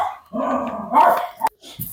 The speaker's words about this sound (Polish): Jeżeli Państwo słyszycie pukanie, warczenie, szczekanie, to są wszystko odgłosy życia tutaj i my tego nigdy nie wycinamy